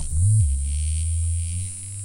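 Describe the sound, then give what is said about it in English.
A vibrating Nano Bug toy on rubber legs gives off a steady low electric buzz once switched on. A brief louder throb opens it before the buzz settles into an even drone. “So there's these little Nano Bugs, and when you turn them on, they sound like this.”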